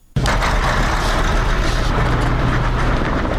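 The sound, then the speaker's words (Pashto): Vehicle engines rumble at a road transport depot in Uruzgan province, Afghanistan, where cars are hired for trips to Kandahar. A loud, steady, dense drone of motors and traffic noise starts abruptly and continues unbroken. “دا په اورزګان ولایت کې د هغه موټرو د لیژ نمائندګي ده چې کندهار ولایت ته خلک لیژدوي.”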